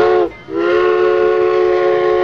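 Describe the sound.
A steam train whistle sounds a loud, harmonically rich high tone that breaks off briefly near the start, then resumes as a long, steady blast.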